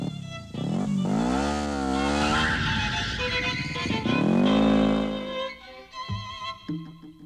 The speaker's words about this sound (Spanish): Le he dicho que no resolverá nada si se va en motocicleta y da vueltas a lo tonto.